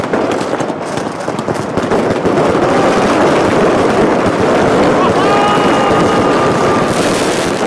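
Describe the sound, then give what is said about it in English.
Firecrackers going off on New Year's Eve in Beijing: a loud, unbroken barrage of dense crackling and popping with no pauses from start to finish. “The firecrackers are so loud, in order to drive away any evil spirits that they believe. And the airstrike is just about to set ours off.”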